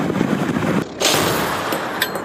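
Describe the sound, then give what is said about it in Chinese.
A heavy, sudden boom from an underwater naval mine detonated by a mine-clearing bomb at sea, breaking through steady rushing noise before a long, loud roar follows. “经过搜索与识别，声呐站位成功锁定水雷方位，灭雷炸弹入水后成功引爆水雷。”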